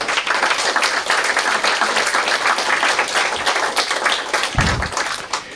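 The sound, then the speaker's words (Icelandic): Audience applause for the staff at an organisation's meeting: brisk, continuous clapping from many people, evenly loud throughout, with a couple of dull low thumps near the end. “Klöppum fyrir starfsfólkin okkar.”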